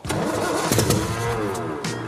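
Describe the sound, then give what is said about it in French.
A car engine cranks as it tries to start after fuel has been added, a continuous rough, churning mechanical turnover with uneven surges that carries on for about two seconds without settling. “Allez, de l'essence, on va voir si ça démarre.”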